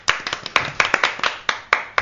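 Brief applause from a small group, quick uneven hand claps with sharp, crisp slaps overlapping one another in a loose rhythm for about two seconds.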